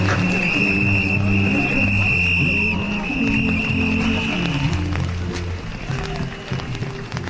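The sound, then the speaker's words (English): Steady hissing of nitrous oxide gas filling laughing gas balloons in a Glastonbury festival field, a continuous loud rush with a thin high whistling tone through the first part, over a low, shifting tonal hum. “As soon as the green police move down into another field, the people selling the laughing gas balloons appear as if from nowhere. So all that hissing sound is the sound of nitrous oxide being”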